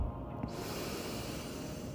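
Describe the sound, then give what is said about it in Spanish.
A person inhales deeply during a guided breathing exercise, a steady, airy rush of breath lasting about two seconds with no talk. “Inhala. Exhala.”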